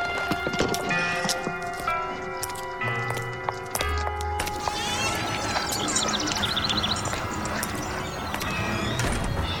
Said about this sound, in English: right before Taylor rode off